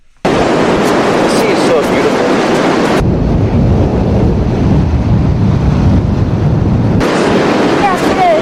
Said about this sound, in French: Oui, le doux son de la mer. On aime ça, le son de la mer. Hein? T'aimes ça, le son de la mer? Ouais. Moi, j'aime ça, le son de la mer. On va écouter le son de la mer.